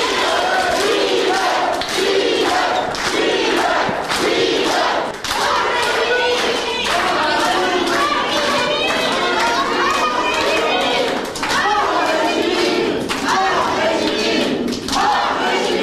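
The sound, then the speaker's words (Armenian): Supporters in a courtroom give defendants a standing ovation: loud, sustained clapping mixed with shouting and crowd voices, a dense din that carries through the full length with only brief dips. “աջակիցները, ընկերները հոտնկայս բուռն ծափերով դիմավորեցին։”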